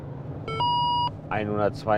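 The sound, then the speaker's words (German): A police speed measurement device gives one steady, bright electronic beep lasting about half a second during a highway speed check, over low traffic rumble. A man then speaks. “Auslösen einer Geschwindigkeitsmessung auf der BRB 2 in Fahrtrichtung Hannover.”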